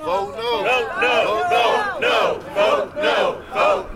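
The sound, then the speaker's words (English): Crowd of about two dozen protesters chanting in opposition to a proposed sports arena authority, loud rhythmic shouted phrases repeating in steady pulses throughout. “That's the sound of about two dozen opponents of a proposal for the Virginia General Assembly to create a new authority that would own a sports arena in Alexandria.”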